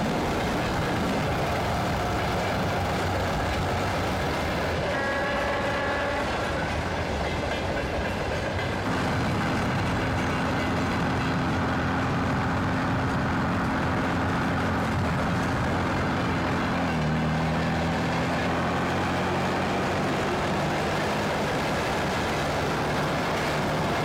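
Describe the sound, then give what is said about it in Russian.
A vehicle drives fast alongside a moving train, with a continuous loud rumble, rail clatter and a few faint tonal whines running through the whole stretch. “Едет на перегонки с поездом.”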